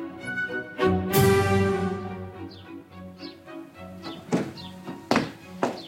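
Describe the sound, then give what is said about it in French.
A heavy trunk is pulled, producing a series of dull thunks and sharp knocking thuds over a sustained tonal background, with one heavy thud early on and a few sharper knocks near the end. “Aide-moi encore à tirer cette malle. Ouh, j'ai mal aux reins.”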